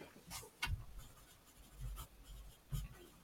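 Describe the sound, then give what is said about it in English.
A pen scratches faintly on paper, a few short strokes of writing with brief pauses between them and no talk. “I'm going to just write down these two since I don't want to get them wrong.”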